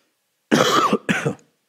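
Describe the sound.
Two harsh coughs, a longer burst followed by a shorter one after a brief pause, heard alone against silence.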